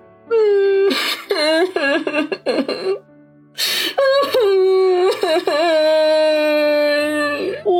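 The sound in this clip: A drunk man sobbing and crying into his hands, voice-acted: long, loud, wavering wails broken by sharp gasping breaths, with a brief pause partway through before the wailing resumes.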